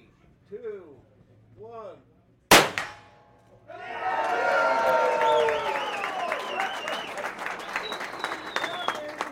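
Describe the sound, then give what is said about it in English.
A single sharp gunshot from a Smith & Wesson .357 Magnum rifle, fired at a shooting range opening ceremony, cracks loudly after brief talk. It is followed by sustained applause and cheering from a crowd. “With one shot from a Smith & Wesson 357 Magnum rifle from about 50 yards, Governor Larry Roden”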